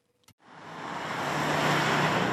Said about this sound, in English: As she drives through one of Melbourne's outer suburbs